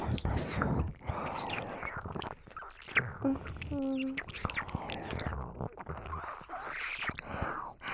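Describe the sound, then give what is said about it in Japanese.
ASMR mouth sounds of ear licking, soft wet smacks and slurps repeating irregularly, mixed with whispering and a short stretch of gentle spoken voice. “勇者様のお耳、確かに美味しいだよね。いっぱい舐めてあげる。”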